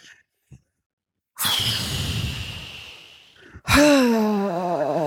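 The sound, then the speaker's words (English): A man's voice imitates loud, heavy mechanical breathing, as men do in a sauna or steam room. A long, harsh, hissing breath lasting about two seconds is followed by a louder, voiced, rasping breath with a wavering pitch. “Stop breathing so loud.”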